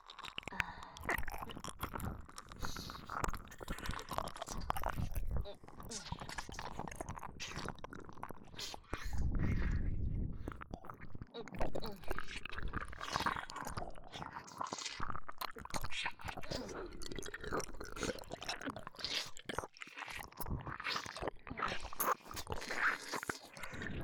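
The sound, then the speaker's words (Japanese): Chewing and biting on an aged, pungent, rich food, with wet, squishy mouth sounds and soft crunches repeating unevenly throughout, fairly loud and close, with a brief low rumble midway. “それではいただきます。”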